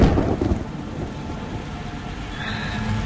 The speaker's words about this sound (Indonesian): Namun belum sampai ke parkiran, hujan keburu turun deras.